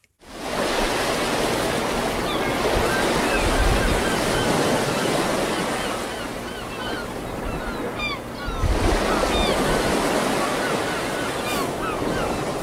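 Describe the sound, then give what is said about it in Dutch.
Sea waves roll onto a Dutch beach in a continuous, loud roar of surf. The wash stays steady throughout, with a fresh surge breaking in toward the end. “Ja, de zee, hè? Ja, je loopt op het strand en je ruikt de zee, je hoort de zeemeeuwen.”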